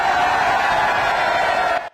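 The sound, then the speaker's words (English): A crowd screams and cheers at an election party in Clacton, a dense, loud, steady roar of many voices that holds level and then drops away abruptly just before the end. “You can see that trademark laughing smile of Nigel Farage there to a screaming crowd.”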